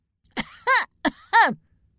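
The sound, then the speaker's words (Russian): A human voice imitates a cat clearing its throat with pompous dignity. It makes two throaty ahem sounds, each a short rasp followed by a voiced, falling hum, with a pause between them. “поправил усы и кашлянул с максимально доступной коту солидностью”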